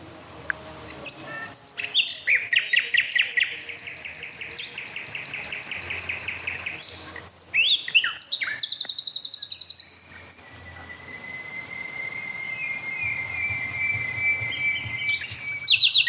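Two songbirds push each other with similar motifs, trading loud, rapid beating phrases of repeated notes broken by drawn-out whistles. A faint, steady insect-like chirring runs underneath.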